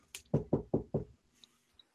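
Four firm knocks on a door come in quick, even succession, followed by quiet with a couple of faint small sounds.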